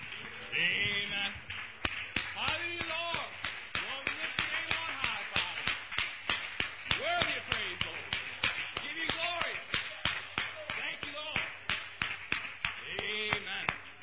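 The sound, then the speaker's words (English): Dense applause from a church audience, a steady wash of many overlapping claps with raised voices mixed in throughout. “Give the round of applause, saints.”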